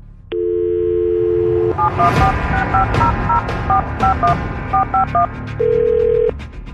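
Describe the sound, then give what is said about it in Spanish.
Touch-tone keypad beeps as a telephone number is dialed: a steady dial tone gives way to a rapid run of short dual-pitch tones at an uneven pace, then another steady tone sounds alone. “No vayas a hablar, déjame marcarle en este momento.”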